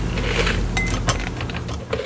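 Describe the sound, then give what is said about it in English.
A spoon scrapes and loosens stringy pumpkin pulp and seeds inside a pumpkin, making a continuous soft, wet scraping with occasional light clinks against the shell, heard alone without talk. “It helps to loosen these pulpy things with a spoon.”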